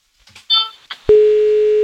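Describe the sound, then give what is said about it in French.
A phone call to a restaurant: a few soft short tones, then a loud, steady ringing tone held to the end. “C'est parti, on appelle le restaurant.”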